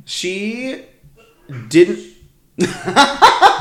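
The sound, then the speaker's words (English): A man sneezes once, a sharp, loud burst set among other vocal sounds, followed by a stretch of chuckling and laughter. “Hey, don't laugh. Was that a ghost? You don't laugh at my husband sneezing.”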